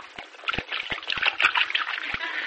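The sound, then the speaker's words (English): Liquid is poured out to form a small puddle, a continuous faint splattering and gurgling stream broken by a few soft low knocks. “You just pour it out, do you? Yeah, like this, see?”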